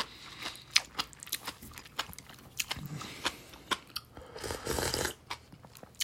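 Crunchy chewing of bean sprouts stir-fried in sesame oil: many sharp, crisp bites in an uneven rhythm, fairly faint and without talk.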